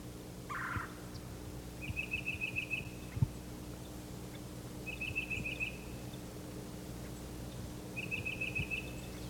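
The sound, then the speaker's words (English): Calls from a mixed flock of cardinals, titmice and myrtle warblers gathered in a bare turkey oak: three short, high, rapid trills spaced evenly apart, with a brief lower note near the start, over a steady low hum. “The flock is gathered here in a bare turkey oak. There are many birds, cardinals, titmice, myrtle warblers,”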